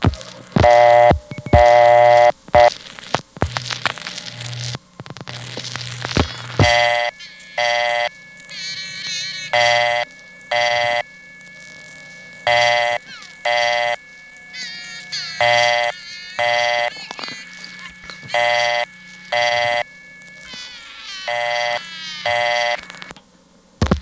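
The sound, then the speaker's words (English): A ContelNet telephone partial dial tone from Atlanta in 1981, with a child singing over the line in short, repeated bursts. The steady tone stays underneath while the sung phrases rise and drop in volume. “instead of going to a recording, were going to a tone usually used for partial dial conditions. That tone was talkable, and on the day I recorded this, there was a kid singing on it.”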